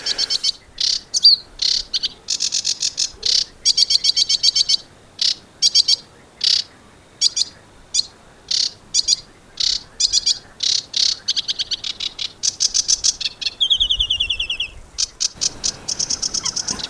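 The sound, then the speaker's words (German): A sedge warbler sings a loud, rapid, high-pitched chattering song in many short bursts, with a fast buzzy trill near the end. “Hier zum Start unseres Birdways, nämlich den Schilfrohrsänger, den Sie ja gerade schon gehört haben”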